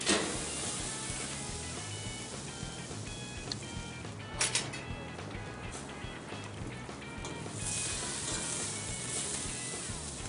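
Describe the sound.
An aged ribeye seasoned with salt and pepper sizzles face down in olive oil in a pan: a quiet, steady frying crackle with a few sharper pops near the middle, and no voices.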